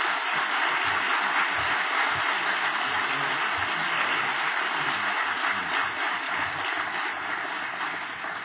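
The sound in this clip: Audience applause welcomes a speaker to the stage: dense, even clapping from many hands that holds steady and loud for the whole stretch, with no voices standing out above it.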